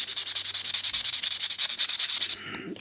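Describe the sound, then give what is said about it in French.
A bisque-fired ceramic piece is sanded smooth by hand. Rapid, even back-and-forth rubbing strokes give a gritty, hissing rasp in a steady rhythm, then stop near the end. “Ponçage biscuit pour avoir un aspect doux, lisse. Il peut y avoir deux étapes de ponçage.”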